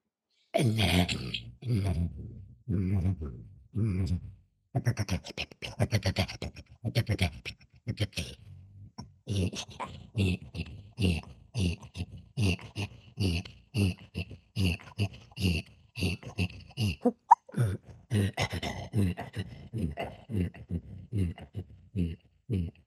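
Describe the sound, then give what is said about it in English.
A voice imitates a reindeer's breathing while it runs long distances, performed as Arctic beatbox. Many quick, breathy grunting pulses follow a steady driving rhythm, with a short break early on, over about twenty seconds. “one of my favorite is reindeer, and I call it Arctic beatbox. So the reindeers, when they run long distance, the thousands of miles, they breathe in a certain way, and it becomes like this.”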